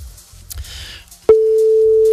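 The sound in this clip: Telephone tone heard while calling an office: a single steady, low-pitched tone cuts in about midway after faint rustling and holds unbroken to the end.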